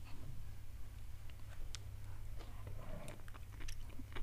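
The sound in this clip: Biting and chewing a whole stalk of water-boiled wild mountain vegetable, a souvenir product eaten in the Nishiwaga style: many short, crisp crunches and moist chewing over a steady low hum.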